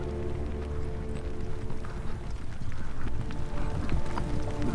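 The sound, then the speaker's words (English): Horses' hooves clip-clop steadily as riders head back toward a city gate. The dense, continuous hoofbeats hold an even rhythm throughout and grow slightly louder toward the end. “Aragorn and Éomer and Imrahil rode back towards the gate of the city, and they were now weary beyond joy or sorrow”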